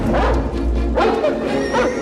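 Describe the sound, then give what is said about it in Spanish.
Caged dogs, some of them hooked up to cables, bark in a few loud bursts mixed with higher yips and whimpers. The barking comes in separate clusters with brief gaps between them. “Algunos perros enjaulados están conectados a unos cables.”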